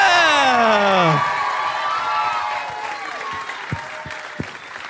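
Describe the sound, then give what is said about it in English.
Audience applause and cheering at a live comedy show as two hosts are welcomed to the stage: loud whoops with falling pitch open over dense clapping, then the applause carries on steadily and slowly thins, with a few short shouts near the end. “Could you please put your hands together and welcome to the stage Matt Stewart and Jess Perkins.”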